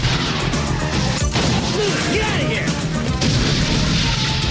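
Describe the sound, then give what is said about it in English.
Gunfire in a film shootout as men fire wildly at a car driving into a club's garage, with a dense, continuous barrage of loud bangs, crashes and impacts throughout. “The men in the car shoot wildly. Axel and the guys shoot back, hitting the car as it drives into the club's garage.”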